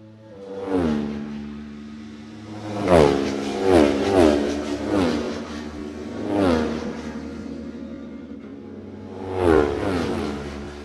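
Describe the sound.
A Kawasaki ER6 motorcycle engine revs during a race, its mid-pitched drone surging and falling back in several separate rises, each climbing in pitch before easing off, with no voices.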